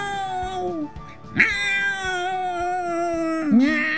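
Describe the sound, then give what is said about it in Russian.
A human voice imitates a cat with a few loud, drawn-out, tonal meows. The long middle meow wavers and slowly falls in pitch, and a last one starts with a sharp rise. “Мастер Виноградинка не стал ему и отвечать, а так мастерски замяукал, что армия мышей остановилась.”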